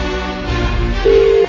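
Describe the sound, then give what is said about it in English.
A telephone call rings out to Wendy's of Warwick, a beautician. A single steady, mid-pitched ringback tone starts near the end over a loud, continuous background. “So, time to phone Wendy's of Warwick.”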